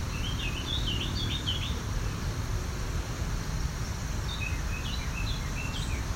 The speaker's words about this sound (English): This is a lot quieter than a Carolina wren usually is. They can really project. This means this bird's practicing. Most likely a male.